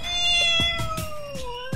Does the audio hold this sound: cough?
no